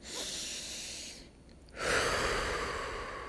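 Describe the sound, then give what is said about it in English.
A deep breath drawn in and released during a mindfulness exercise about staying present: two soft, airy breath sounds split by a short quiet pause, the second slightly louder. “let's take that deep breath.”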